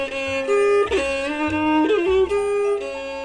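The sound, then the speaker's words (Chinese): A daguangxian, a large-bodied Chinese bowed fiddle with an oversized soundbox and a deep, low tone, plays sustained bowed notes with smooth slides between pitches. The tone is rich in overtones and steady in loudness. “这是大弓弦的声音。”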